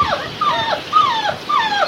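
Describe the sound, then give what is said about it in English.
Week-and-a-half-old wolf pups whimper in their den. Thin, high, wavering whines repeat several times, each sliding downward in pitch. They are soft and come with no talk. “These are the whimpering sounds of these young pups.”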